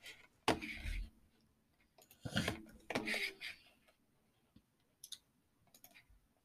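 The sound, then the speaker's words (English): Block-placing sounds in Minecraft as sandy-looking floor blocks are laid, a few soft crunchy thuds and clicks at irregular intervals, with fainter taps toward the end. “Okay, so my flooring is almost done here.”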